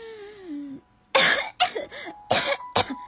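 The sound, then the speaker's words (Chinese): Several harsh, choking coughs from a mother in a children's story, as she brings up a drain plug from her throat, come in quick, uneven bursts, voiced by a performer. “还咳了好几声，从喉咙里喷了出排水孔的塞子。”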